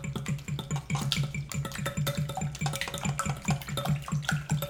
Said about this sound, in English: Just gonna whisk it till the yolks are broken up.